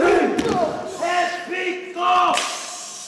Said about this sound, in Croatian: ratni poklič odjekuje cijelim kazalištem u Sidneju. Snažni udarci nogama o pod. Udaranje i pljeskanje po tijelu.